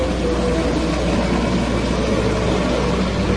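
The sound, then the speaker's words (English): Outboard motor of an inflatable raft running as a steady, unbroken low drone with a broad rushing noise over it, even in loudness throughout and heard alone. “In the viewfinder, he sees the two men motor for shore in the inflatable raft.”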